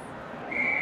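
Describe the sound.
A referee's whistle sounds at a college ice hockey game, a short, bright, high steady tone near the end over constant background noise.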